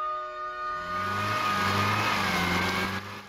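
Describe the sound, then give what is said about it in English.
A Morris car stuck in thick mud at the bottom of a hill revs its engine while the front left wheel spins uselessly in the wet bog. A loud, steady roar rises in revs early on, churns continuously, then drops away near the end. “The Morris is stuck in thick mud at the bottom of the hill. Pat revs the engine and the front left wheel below the missing wing spins uselessly in the wet bog, spattering the passenger window with mud.”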